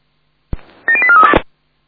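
Telephone keypad tones from a phone being dialled amid fire brigade radio traffic: a sharp click, then a quick run of several short, bright beeps that ends in a brief louder burst.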